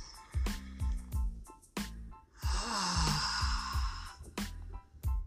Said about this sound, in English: Doesn't that feel good? The beauty of being able to breathe.